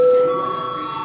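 A bell rings in a parliament chamber before a vote: a loud, sustained electronic ringing with a strong tone at the start that eases into a steady, slightly buzzing hum.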